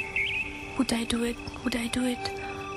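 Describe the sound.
A bird calls in two repeated speech-like phrases, with a short high chirp before them. A faint steady hum runs underneath.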